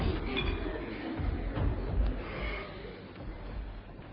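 Glassware clinks faintly as wine, soda, a glass and an ashtray are set out beside a bed, a few light chinks and knocks over soft rustling.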